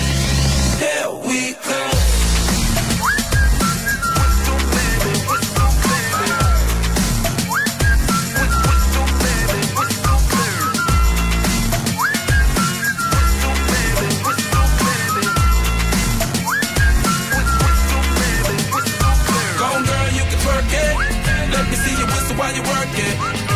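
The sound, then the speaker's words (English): A lip-whistled melody repeats its hook over a loud pop dance track, riding above a steady beat and heavy bass that run throughout. “You just put your lips together and you come real close. Can you blow my whistle, baby? Whistle, baby.”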